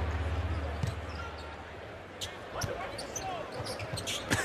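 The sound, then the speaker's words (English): A basketball being dribbled on a court during a game, the bounces faint and scattered beneath a steady wash of crowd noise, with a few sharper thumps standing out near the end. “He weaves off a dribble, snurks back to the left hand, gets the elbow, fires it”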